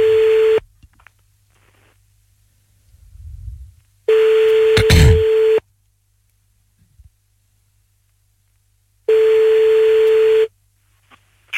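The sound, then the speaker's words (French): Ringback tone of an outgoing phone call: loud, steady, mid-pitched tones of about a second and a half, repeating after long silent gaps, with a faint low rumble in one pause. “Bon, on y va, on l'appelle, c'est parti. On appelle Karine, là, maintenant.”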